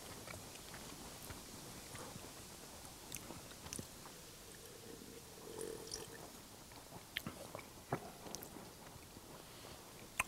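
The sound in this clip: Faint, moist chewing and biting as someone tastes pâté, with soft squishy mouth sounds and a scattering of sharper clicks that come more often toward the end; no voices.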